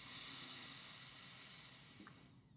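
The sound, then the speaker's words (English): A deep inhale through the nose during a guided breathing exercise for calming the nervous system: a soft, steady, airy hiss that lasts about two seconds and fades away, heard alone without talk. “take a deep breath in through your nose and then out through the mouth. Gonna do that again in through the nose,”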